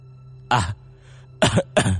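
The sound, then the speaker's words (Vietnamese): A man with an injured windpipe coughs hard while bent over: three harsh, explosive coughs, one alone and then two in quick succession, over a faint steady low hum. “Tiêu Tam Đạt bỏ dậy, dường như khí quản của ông ta bị thương, phải cúi xuống ho khủng khục không ngừng”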